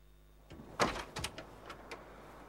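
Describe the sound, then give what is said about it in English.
A door handle is pulled down on a locked door, giving a few faint metallic clicks and rattles as the latch catches and the door stays shut. “She pulls down the handle, but the door won't open.”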